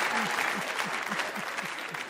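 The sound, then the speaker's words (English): A single person claps in a quick, even rhythm: many light, evenly spaced claps over a soft background hiss. “Look, I got someone clapping.”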